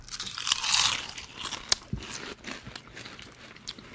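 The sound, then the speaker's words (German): Crisps being crunched and eaten right in front of a microphone: crackly, crumbly bites and chewing with scattered sharp snaps, fairly faint and without talk. “Krümlicher auch noch. Ja, Chips halt. Also, nachdem es Mode geworden ist, in Podcasts zu essen, haben wir uns überlegt, wie können wir das übertreffen.”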